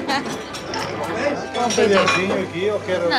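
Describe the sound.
Quick metallic clinks and taps of fast knife work as sausage and cheese are cut at a street food stall in Porto, a busy scatter of small hits under people talking.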